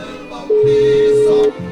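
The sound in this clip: A telephone call rings out to an aunt's line with a single ringback tone, a steady mid-pitched beep lasting about a second over a faint low background.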